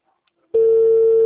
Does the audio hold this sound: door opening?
no

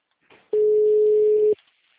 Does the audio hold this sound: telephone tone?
yes

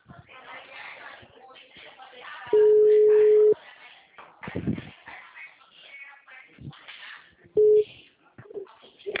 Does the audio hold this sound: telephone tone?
yes

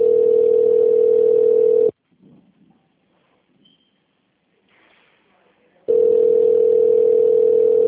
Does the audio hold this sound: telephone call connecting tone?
yes

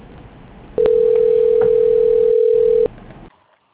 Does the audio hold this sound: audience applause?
no

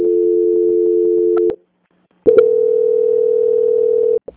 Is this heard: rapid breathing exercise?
no

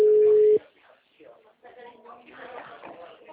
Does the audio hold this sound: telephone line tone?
yes

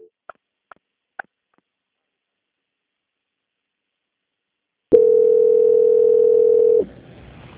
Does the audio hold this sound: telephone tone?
yes

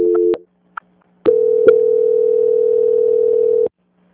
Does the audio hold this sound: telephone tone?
yes

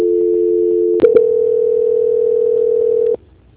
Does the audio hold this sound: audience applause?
no

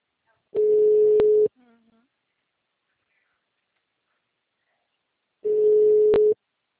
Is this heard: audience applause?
no

